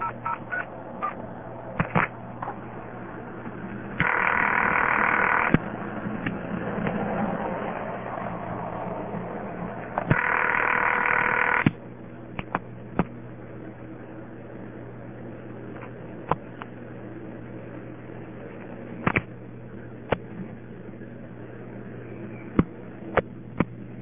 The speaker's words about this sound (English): It goes half speed, and then there are no ticks at the end when the induction noise comes on. You just hear the induction noise loud and clear.